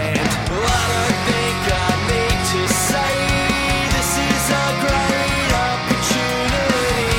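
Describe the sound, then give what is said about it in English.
Punk rock chorus with a lead guitar line added on top, played as octaves on one string, over loud distorted rhythm guitar, bass and steady drum hits, continuous and dense without pauses. “And then this is adding that lead guitar line in.”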